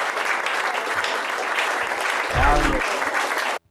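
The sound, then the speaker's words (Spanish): A crowd applauds a band of young performers with dense, steady clapping. A short voice rises briefly in the middle, and the clapping cuts off abruptly at the end. “Un aplauso a los muchachos.”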